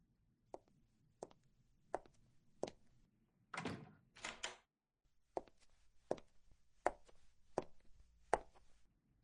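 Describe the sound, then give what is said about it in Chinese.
A door being closed, heard as a faint series of sharp knocks and thuds with a brief scraping rustle in the middle, the taps recurring at a fairly even pace. “我先去把门关上”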